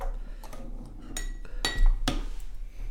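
Sharp glassy clinks and knocks as freshly tapped beer is opened and served into a glass: a few bright taps, the strongest near the end, over a quiet steady low hum.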